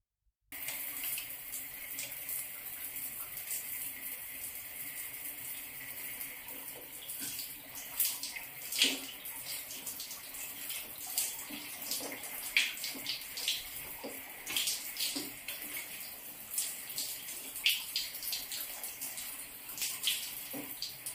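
Tap water running to fill a bath, a faint, steady rushing flow that begins after a brief silence and continues unbroken, with occasional small splashes.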